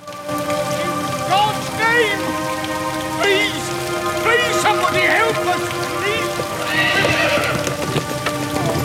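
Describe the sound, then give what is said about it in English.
Hooves clip-clop steadily as a horse draws a hansom cab along in the rain, with several loud, shrill whinnies rising over the hoofbeats and a constant hiss of rainfall throughout. “A handsome cab approaches. A reverend climbs out of the cab into the rain.”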